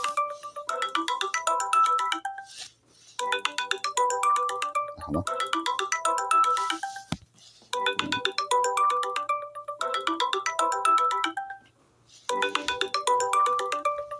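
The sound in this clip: A melodic ringtone of an incoming phone call to a program. Its bright tonal phrase repeats loudly several times, with short pauses between the bursts and no talk over it.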